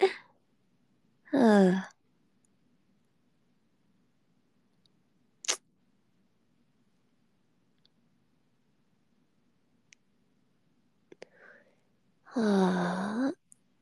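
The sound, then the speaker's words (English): Two drawn-out human yawns from a suddenly sleepy person, voiced breaths sliding downward in pitch, separated by long quiet with a few faint clicks. “I'm yawning so much.”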